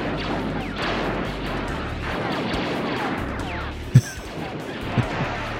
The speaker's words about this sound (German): wie bei der Flucht vom Todesstern. Ich zeig die euch mal und dann seht ihr schon, Disney selber hat das hochgeladen und hat mal so einen Counter eingebaut, wo du siehst, wie oft die innerhalb von nur einer Szene daneben schießen.